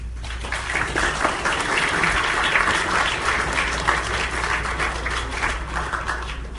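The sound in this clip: Warm applause from a community audience welcoming a rabbi to speak. Many hands clap in a dense, steady patter that holds at an even level for several seconds.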